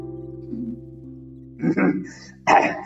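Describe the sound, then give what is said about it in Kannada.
Throat clearing and a cough during a spiritual lecture: a low steady hum, then two short, rough bursts, the second sharper and louder, with no words spoken. “ಕೆಮ್ಮು ಸರಿ ಮಾಡ್ಕೊಂಡಿದ್ದೀನಿ ಗಂಟಲು”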